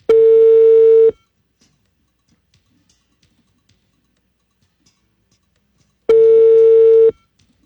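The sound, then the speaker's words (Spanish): Two long, steady telephone tones, each about one second, sound on a call to a number in Bogotá, separated by several seconds of near silence. “Está rechazando la llamada. ¿La está rechazando? Sí. Dios mío, no le ha contestado, ya la rechazó.”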